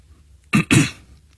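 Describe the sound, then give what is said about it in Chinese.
A village head gives a light cough: two short, soft bursts in quick succession, heard alone in an otherwise quiet moment. “村长轻轻地咳了一下，又顿了顿，缓缓说道”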